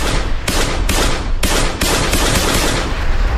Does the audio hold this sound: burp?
no